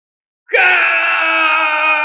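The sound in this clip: A man screams in furious rage: after a moment of silence, a loud, strained cry bursts out and holds steady at a high, harsh pitch until the end.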